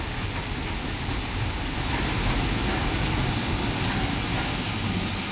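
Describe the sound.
Steam locomobile running on a local light railway: a dense, steady rumble and hiss that holds at an even loudness throughout, with no distinct separate events.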